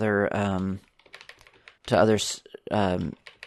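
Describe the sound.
Light clicks of typing on a computer keyboard, including presses of the backspace key, tap between bursts of a man talking.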